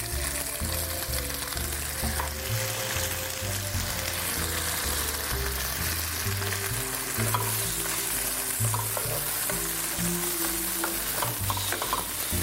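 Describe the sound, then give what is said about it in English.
Tomatoes frying in a pan for an Indian dish give a steady, dense sizzle with scattered crackles throughout, over low, shifting tones underneath. “tomatoes are in the pan.”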